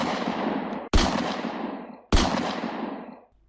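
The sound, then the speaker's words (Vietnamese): Gunshots fire at night by the sea near a warehouse: loud, sharp blasts, each trailing into a long fading rumble, with a few shots one after another. “Giữa đêm tiếp tục có 3 tiếng súng nổ ra như xé tan cái âm thanh của biển cả.”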